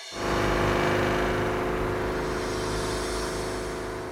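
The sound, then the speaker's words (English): A car drives toward Lake Fuschel with a steady, loud engine drone and road rumble that hold even and ease slightly near the end. “To reach him, I drive to a place called Lake Fuschel, which makes the word picturesque seem cheap.”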